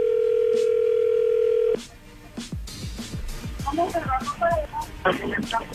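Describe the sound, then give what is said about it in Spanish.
A steady telephone dial tone hums for almost two seconds while a call is redialed, then cuts off abruptly and people start talking. “Vuélvale a marcar a ver si otra vez sí lo escucha.”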